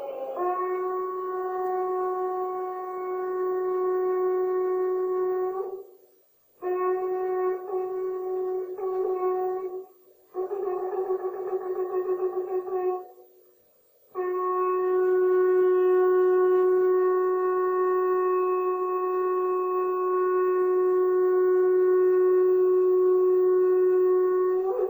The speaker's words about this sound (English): They have the shofar blow on Rosh Hashanah. But the shofar sound, the way that they blow it, is very unique. It's always the same. There's a rhythm to it, a cadence to it, and I'll let you hear what that sounds like.